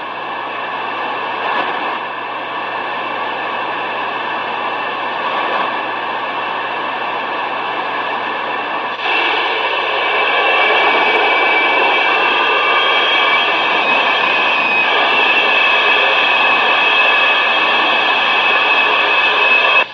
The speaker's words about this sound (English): Let me turn the microphone around and give me some prop noise here.